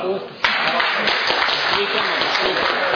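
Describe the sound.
Applause for a prize winner at an awards giveaway bursts in abruptly after a quieter moment, then holds as dense, steady clapping to the end.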